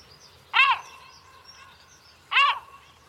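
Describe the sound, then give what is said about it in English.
A blackbird calls twice, each a short, bright, warbling note, with about two seconds of near quiet between them. “So it's a blackbird then?”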